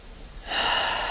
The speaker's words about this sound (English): And then just taking one last sweeping, cleansing breath.